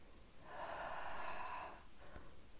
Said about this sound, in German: Atme mal Dreimal tief durch die Nase ein und durch den Mund wieder aus.